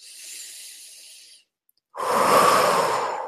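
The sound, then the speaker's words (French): Deep breathing during a guided relaxation exercise: a soft, airy breath, a short silent pause, then a louder, fuller rushing breath, with no talking. “Voilà, donc prenez, prenons de profondes inspirations.”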